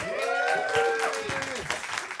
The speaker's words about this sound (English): Please put your hands together and welcome to the stage the eerily talented Dwayne Perkins and the terrifyingly hilarious Katrina Davis.